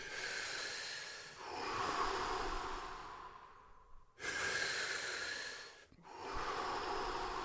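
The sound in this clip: Deep, slow breaths in and out during a guided breathing exercise, filling the belly and chest. The long, loud airy rushes are separated by brief pauses, with no talk over them.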